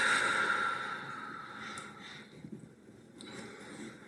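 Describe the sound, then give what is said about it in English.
A deep breath during a guided meditation, drawn in and let out as a soft, airy rush that fades gradually, with no talking over it. “And as we just take a deep breath,”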